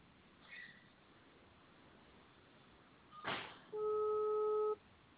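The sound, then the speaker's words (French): Telephone ringing tone heard on the line during a call: a single steady electronic beep about a second long, preceded by a brief burst of noise, over faint line hiss. “Alors, de mon côté, ça sonne en l'occurrence. Je vais essayer de voir si je tombe sur son répondeur.”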